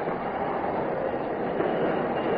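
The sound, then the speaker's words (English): A train rolls along the rails with a loud, steady rumble and rattle that holds evenly throughout. There is no clear burst of brake hiss. “Brakes. Somebody pull the air brakes.”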